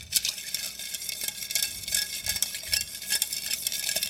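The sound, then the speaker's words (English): Ice rattles and clinks steadily as a bar spoon stirs an old fashioned sweetened with Steen's cane syrup, a quick, continuous patter of bright taps against the glass with no talk over it. “Now we're going to add a little bit of ice into here. Give this drink a nice stir.”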